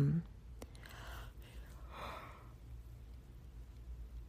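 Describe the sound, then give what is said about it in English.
A person yawns with a drawn-out, breathy intake and a sighing release that carries a soft voiced tone. The yawn is faint and slow, and no words are spoken. “sorry, I keep yawning, so I guess I should go to bed now.”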